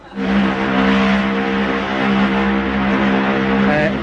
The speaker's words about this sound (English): Start her up, chief. Give her a crank.